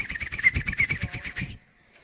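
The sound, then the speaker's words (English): Spotted warbler call: a rapid run of many bright, high chirps repeated in a steady rhythm for about one and a half seconds, then breaking off into near silence. “This is the spotted warbler.”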